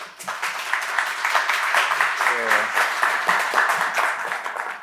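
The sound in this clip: Audience applause welcomes a poet to the stage at a literary reading event. Dense, steady clapping holds at an even level for the whole stretch, with a few faint voices mixed in.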